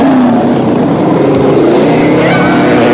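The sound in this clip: Motorbikes speed off down a walkway toward a beach, their engines giving a loud, continuous roar with shifting harmonic whine and no break across the whole stretch.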